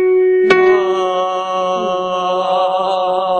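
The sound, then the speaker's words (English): A single sustained musical note, the F sharp above D, given as a starting pitch at a group singing session. It begins with a sharp attack, then holds steady, rich in harmonics and fairly loud, for about three seconds with no talk. “you're going to sing the F sharp above the D, which sounds like this.”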